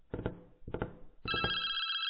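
A telephone rings: two short, rattling bell bursts, then a longer sustained ringing tone that holds to the end, clear and alone.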